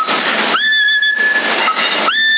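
Whistling into a CB radio microphone, heard through a narrow, hissy radio channel. Steady, high whistle tones, each starting with a brief upward slide, recur over the static.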